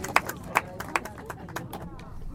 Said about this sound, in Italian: un applauso perché se lo meritano, se lo meritano col cuore